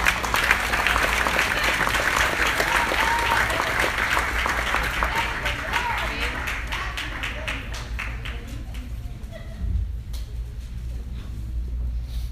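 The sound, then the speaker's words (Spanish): Audience applause from a church audience during a sermon, a dense and steady clatter of many hands clapping that holds for about twelve seconds and eases off slightly toward the end. “Un aplauso a Dios por mi esposa.”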